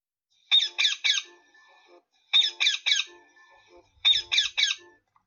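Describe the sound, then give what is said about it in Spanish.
Small birds singing in a forest: three separate bursts, each of three harsh, high chirps followed by softer trailing notes, with silent gaps between the bursts. “A mitad de camino se detuvo a juntar flores y a observar el canto de los pajaritos.”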